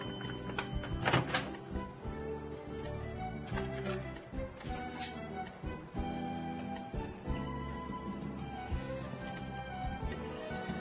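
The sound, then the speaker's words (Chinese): An oven door opened to check a baking cheesecake, with a dull thunk and a few soft knocks early on, mostly buried under steady background music. “那可能还要再烤一下哈。好，我们现在呢，过了大概五分钟左右啊，我们再来打开看看，应该是可以的哈。”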